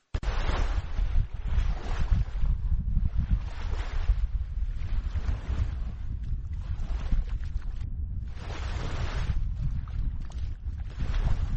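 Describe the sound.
Low engine rumble and rushing wind from a fishing boat moving through Red Sea waters off Djibouti: a steady drone overlaid with repeated gusty bursts of broad noise. No voices.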